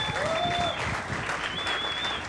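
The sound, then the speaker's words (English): Applause from an audience at a community gathering: a faint, steady patter of many hands clapping throughout, with a thin whistle-like tone drifting in and out above it. “I wouldn't be clapping yet. I'd wait to see how he does.”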